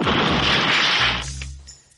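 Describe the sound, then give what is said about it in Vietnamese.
A wooden bed collapses as two people and a wooden plank fall to the ground: a loud, dense crash that holds for about a second, then fades away. “Quỷ phô sập, Triển Chiêu và Bạch Ngọc Đường cùng rơi xuống đất với tấm ván gỗ. Phập một cái, bụi bặm cuộn lên.”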